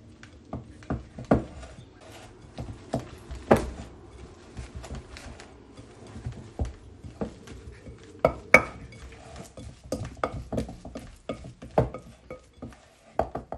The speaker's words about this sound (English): Okay, that's all the ingredients added now, so I'm just going to give it a good stir.